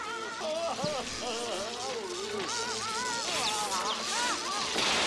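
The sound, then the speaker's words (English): Crackling high-voltage electric shock flinging people over, from the 1996 film 101 Dalmatians: a dense, steady hiss and crash that runs throughout, with wavering, cry-like vocal sounds over it. “Oh, high voltage. Oh my god, it throws them over. Yep. You can see the electricity.”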